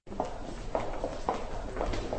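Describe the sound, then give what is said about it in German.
Footsteps echo along a long, narrow hospital corridor with smooth walls. Several distinct steps fall at a steady walking pace over a low background hum. “Schritte hallen in dem langen, schmalen Gang.”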